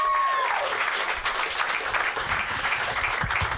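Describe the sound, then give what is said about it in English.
An audience at a live stand-up comedy show claps for a comedian taking the stage, with loud, continuous applause that stays steady throughout. “Give it up for Tanya Nascimento.”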